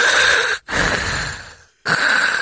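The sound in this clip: A voice imitates a CPAP machine's breathing with three loud, airy, hissing breaths in steady succession, separated by short silent gaps.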